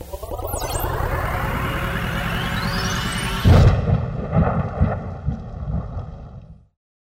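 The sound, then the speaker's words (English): A science-fiction pocket singularity grenade going off: a long rising electronic whine builds under a noisy rumble, then a deep boom hits, followed by crackling rumbles that cut off abruptly into silence. “What'd you do? Where'd they go? Pocket singularity grenade. Apparently, I invented them, which honestly is far too practical of an application.”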